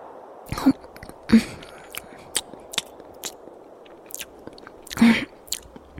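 Someone chews a dry piece of bread: a few louder crunchy bites stand out among softer, irregular mouth clicks and chewing sounds against a quiet background.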